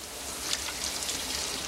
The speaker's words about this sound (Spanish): Cierra la mampara y continúa duchándose.